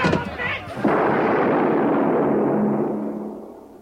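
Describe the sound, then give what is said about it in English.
A single gunshot cracks out, sharp and loud, then trails into a long, rumbling decay that fades over the next few seconds. “That bullet will never reach you.”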